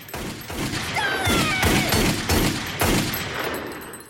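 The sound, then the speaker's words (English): A handgun is emptied as bullets rip through a door and wall. Many sharp, loud cracks and heavy thumps follow one another rapidly for several seconds. “Flanagan kicks it and then angrily draws her gun. Megan huddles tightly as bullets rip through the door and wall, impacting around her.”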